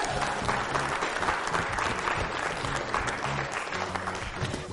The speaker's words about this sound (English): David Andrews, make some noise.